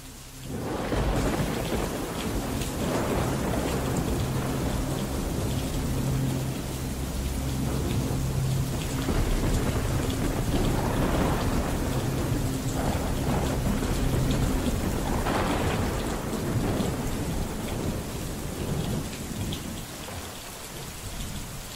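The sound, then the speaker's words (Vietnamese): Heavy rain pours in a dense, continuous roar while rolling thunder rumbles low beneath it, swelling and fading several times over the steady downpour. “Sau đó chỉ là tiếng mưa rào rào cùng với tiếng sấm chớp vang rền trên tầng”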